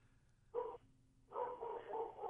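Dog barking, faint: one short bark, a brief pause, then a longer run of barking.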